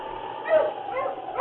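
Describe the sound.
A dog near a sled team gives a few short, mid-pitched barks and whimpering yips. The sound is thin and muffled, with quick uneven bursts and no speech over it.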